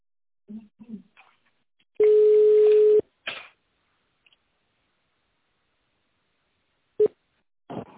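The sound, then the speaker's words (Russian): A telephone ringing tone plays while a call is transferred to the duty manager: one steady, low, buzzing tone about a second long, framed by brief voice fragments and followed later by a short blip. “Звонок переводится на дежурного менеджера.”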